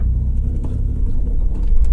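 A car drives along with a steady, low engine rumble and road noise throughout, growing slightly louder toward the end.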